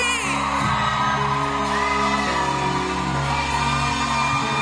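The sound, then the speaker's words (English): A crowd at a conference event loudly cheers, whoops and shouts as a pastor is welcomed onto the stage, a dense, continuous roar that holds steady throughout. “Ladies and gentlemen, with a resounding applause and a standing ovation, join us as we welcome to the MIC State 2025, Pastor Mavis Oye!”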